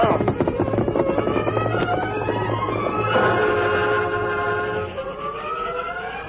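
A westbound freight train rolls through town with a steady heavy rumble. Sustained, whistle-like tones run through it and bend upward midway. The sound stays loud before easing slightly toward the end.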